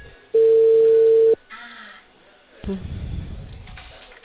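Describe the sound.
A telephone dial tone heard while placing a call: a loud, steady, single-pitched tone lasting about a second. It is followed by quieter, muffled line noise.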